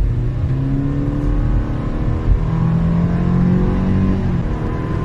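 A Subaru Forester's naturally aspirated 2-litre engine, with permanent all-wheel drive and an automatic CVT gearbox, accelerates with a loud, steady drone and whir whose tones slowly rise.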